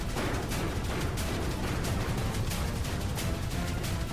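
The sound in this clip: Video game gunfire fills the scene as the player is shot at. It is a dense, continuous barrage of rapid, rough blasts at a steady, fairly loud level with no pauses.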